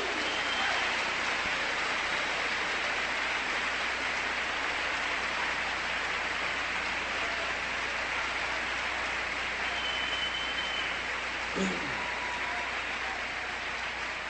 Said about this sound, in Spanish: Un aplauso de homenaje al Señor.